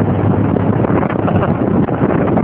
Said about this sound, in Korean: 지금 너무너무 시원한 바람 맞으면서 창문 다 열고 지붕까지 다 열었습니다.